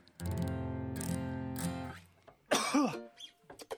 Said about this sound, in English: I have a little bit of a cold. I bet coughs don't sound so great on the radio.